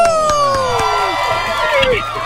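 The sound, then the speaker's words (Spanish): Loud cheering and whooping from an audience welcoming a guest judge at a debate, with high shouted voices rising and falling over a few scattered claps. “Bienvenida, el aplauso para Rocío.”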